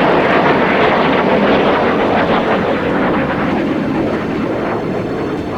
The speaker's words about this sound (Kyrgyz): Төңкөрүшчүлөр көзөмөлдөгөн F-16 учактары коомчулукту коркутуу үчүн Анкаранын үстүнөн төмөндө уча баштады.